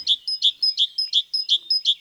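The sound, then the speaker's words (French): Great tit singing: a bright, high-pitched two-note phrase repeated many times in an even, quick rhythm, loud and clear with no other sounds around it. “Attention, la mésange charbonnière... Je ne sais pas si vous l'entendez, on l'entend.”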